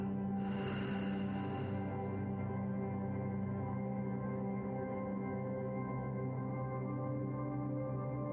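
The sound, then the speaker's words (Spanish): A long breath exhaled during a guided breathing exercise: a soft, airy rush lasting over a second, set over a steady, humming musical drone that continues afterward. “1, 2, 3, 4 y exhala.”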